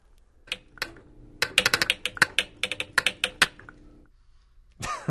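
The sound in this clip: Solenoids drive pestles into mortars in an electromechanical instrument, producing many sharp, dry clicks in quick irregular bursts, with a short broader rustle at the very end.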